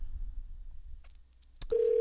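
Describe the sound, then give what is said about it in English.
Telephone dialing on a call line: low rumbling noise, then a sharp click followed by a loud, steady tone that holds to the end. “a call. Ladies and gentlemen, here we go. I hear some dialing.”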